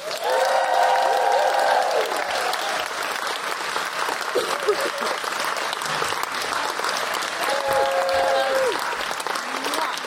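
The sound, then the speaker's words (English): Audience applause and cheering for a comedian being introduced: loud, steady clapping throughout, with high whoops rising above it near the start and again around eight seconds. “Please put your hands together and make general woohooing noises for Carrie Quinlan.”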